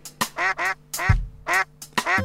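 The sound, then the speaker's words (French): A human voice imitates a duck's quack in a children's animal-sounds song, giving several nasal, buzzy quacks in a quick, bouncing rhythm with no other talk. “Ce petit canard fait.”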